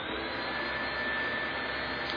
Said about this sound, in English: So we eventually just recorded the sound of the vacuum cleaner.